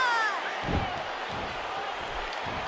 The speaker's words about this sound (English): Oh! A double-handed punch.